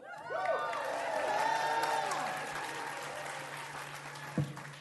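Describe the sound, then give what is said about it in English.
Studio audience applause greets the return of a show after a two-year hiatus: dense, sustained clapping with cheering and whoops, steady for several seconds before easing slightly, with a brief louder burst near the end. “Give yourselves a big hand.”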